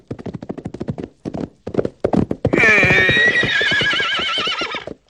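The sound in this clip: Horses' hooves clip-clop in a brisk, steady rhythm. A horse then lets out a long, loud, quavering whinny for about two seconds while the hoofbeats continue underneath.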